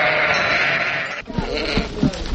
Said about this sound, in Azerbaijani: Öz qoyunlarımız. Hamam belə çoxlu qoyunları var.